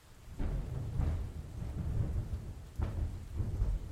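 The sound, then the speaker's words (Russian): Thunder rolls with steady rain: a deep, rumbling roar swells several times over a constant hiss of falling rain. “прервал раскат грома. Надо поторапливаться. Нет ничего хуже, чтобы быть застигнутым штормом у побережья.”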